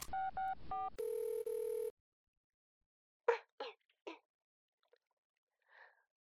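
A telephone is dialed: a quick run of dialing beeps, then a longer steady tone. Quiet follows, broken only by a few faint, brief noises.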